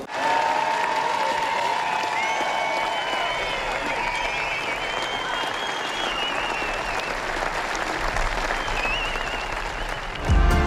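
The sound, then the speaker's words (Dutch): A football crowd gives a player a minute-long round of applause during a match. Thick, sustained stadium clapping is mixed with crowd voices and holds a steady level before ending abruptly. “In de 13e minuut gaan wij Dennis operationeel applaus geven.”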